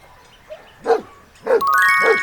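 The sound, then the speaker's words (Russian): A dog barks three times, loud and evenly spaced, each bark a short, full-throated woof. “Собака.”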